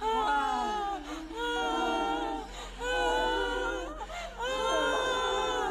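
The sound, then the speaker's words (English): Several women wail together in long, sustained, quavering cries alongside a sobbing woman in a ritual scene from the film Midsommar. The overlapping voices swell in waves, with brief dips between the surges. “all the women who are with her take her into this other building, and she's sobbing, and they're doing like what they're doing in the sex room, and like vocalizing her sobs with her.”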